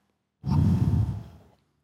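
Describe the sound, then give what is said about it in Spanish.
A single long, forceful breath blown out by a Catholic priest, imitating God breathing life into a man formed from clay. The exhale starts abruptly, holds as a steady, breathy rush for about a second, then fades out. “Le sopló. Le sopló.”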